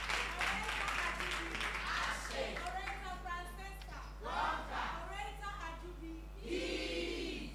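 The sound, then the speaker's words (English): An audience at a school debate competition applauds, with cheering voices mixed in. The clapping stays steady and fairly loud throughout, rising in bursts as the shouts swell. “Oh, put your hands together for your own selves.”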